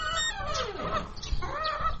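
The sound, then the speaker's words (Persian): Chickens cluck in a run of repeated, throaty calls, fairly loud and without any talking. “او باید بیا که بریم با مرغا دانه پرتیم.”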